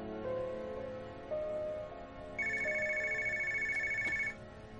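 A mobile phone ringtone trills in a bright, steady electronic pattern for about two seconds while someone shops for a wedding dress, over a quiet wash of lower background tones.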